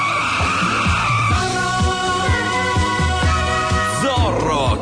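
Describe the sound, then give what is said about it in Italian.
A roaring motorcycle arrives, its engine loud and continuous with rapid revving. The pitch dips and climbs again and again with the throttle, with a harsh, gritty edge throughout. “Un solo uomo è in grado di porre fine a questi soprusi e arriva in sella ad una rombante motocicletta.”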